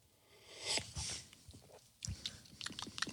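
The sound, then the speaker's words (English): Quiet, close-up slurping sips of very hot, expensive coffee with creamer: a few short, wet sucking bursts and soft clicks in an irregular rhythm. “So here comes your first sip of this very expensive coffee from Pasadena, the Copa de Dapa. Here we go. Christ, that's hot.”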